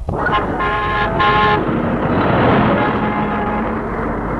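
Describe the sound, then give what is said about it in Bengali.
A bus horn honks a few short, bright blasts in the first half as the bus arrives. A loud, continuous engine rumble and traffic din follow. “ওঠো ওঠো ওঠো, বাস এসে গিয়েছে, তাড়াতাড়ি না গেলে আবার সিট পাওয়া যাবে না।”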